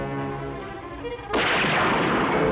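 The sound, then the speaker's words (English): Dense gunfire from a gun battle bursts in abruptly about halfway through and holds as a loud, sustained roar of noise to the end, after a quieter, steady tonal passage. “Scott's now locked in a gun battle with Lindsay”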